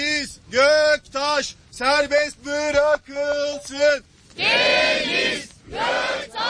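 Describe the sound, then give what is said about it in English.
Protesters chant in unison outside a courthouse in Istanbul, gathered under umbrellas in the rain. A loud, rhythmic Turkish chant repeats several times, then gives way to a broad, noisy crowd roar. “Well, what you heard there were chants of Free Deniz Göktaş.”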